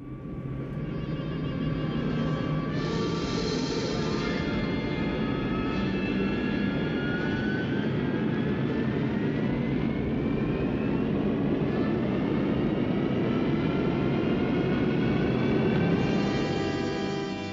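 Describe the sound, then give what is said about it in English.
A ship's engine roars steadily and loudly as the vessel is put into gear, with a whining tone that climbs in pitch partway through; no voices are heard. “I'm putting the ship into gear now. Here we go.”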